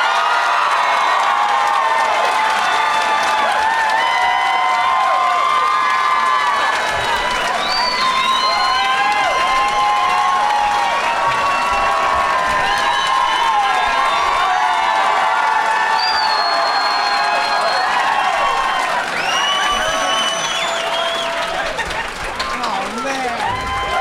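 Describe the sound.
A studio audience cheers and applauds to welcome guests at a live comedy show: a loud, sustained roar of clapping, whoops and shouts that holds steady for the whole stretch.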